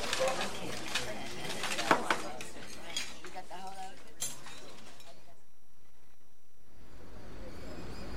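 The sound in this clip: Cutlery and dishes clink as people start eating a meal: light, scattered metallic taps and chinks, a few standing out, under ongoing talk.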